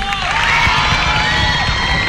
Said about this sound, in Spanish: El aplauso.